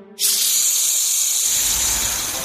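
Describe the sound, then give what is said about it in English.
Steam hisses hard out of steam engines: a loud, continuous hiss bursts in abruptly and holds steady for over two seconds, with a low rumble joining beneath it partway through. “they blew out steam as hard as they could. Clouds of fluffy white steam filled the air.”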